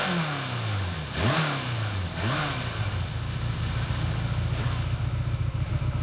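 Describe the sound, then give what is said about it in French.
A motorcycle engine revs in two sharp blips, its pitch sweeping down between them, then settles into a steady, throbbing idle. “Ah, c'est vrai qu'elle ronronne maintenant. Ah, vous voyez ce que je sais faire? Mais toutes les motos font comme ça, hein.”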